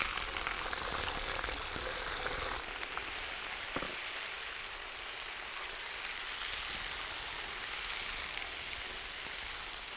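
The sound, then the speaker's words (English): Potatoes frying in oil in a kazan over an open fire make a steady, dense sizzle that crackles continuously throughout, with no talking. “We pour in the oil. The first thing we need to do is fry the potatoes well. We don't add salt or anything else. Okay. Just fry them.”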